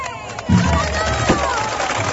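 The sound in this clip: Crowd ovation greets the paso de misterio float during the Procesión del Cautivo in Huelva, with people gathered up on a hillside. A loud, steady roar of cheering and clapping voices surges in and holds.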